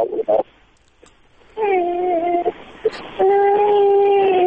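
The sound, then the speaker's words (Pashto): A child crying over a phone call: two long, wavering wails come through a thin, muffled line, separated by quiet gaps with a few faint clicks. “او ګوره ماشوم ژاړي”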